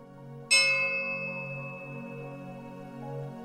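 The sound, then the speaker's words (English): A relaxing chime: a single bright bell strike rings out and slowly fades over a soft, sustained low drone. “it will end with a relaxing chime that sounds like this.”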